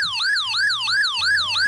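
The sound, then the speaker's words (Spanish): A custom phone notification tone imitates an emergency siren: a loud, quick wail rises and falls about five times in under two seconds, with no one talking. “mi notificación suena así.”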